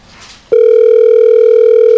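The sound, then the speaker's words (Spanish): Ringback tone of an outgoing phone call: after a brief faint stretch, a loud, steady electronic tone switches on abruptly and holds unbroken at one pitch until the end. “Ahí está sonando. A ver si nos contesta el buen Elena, el buen Dodó”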